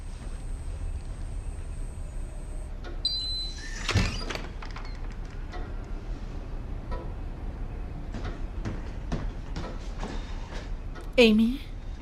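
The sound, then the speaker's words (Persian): The main door opens in a single brief burst of noise partway through, heard over a steady low background, with voices speaking around it. “در اصلی باز شد.”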